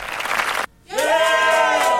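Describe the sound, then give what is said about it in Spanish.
Applause and shouting from a radio studio audience: a burst of dense clapping, a brief gap, then sustained high voiced shouts and cheers over continued clapping, loud throughout. “El aplauso con gritos.”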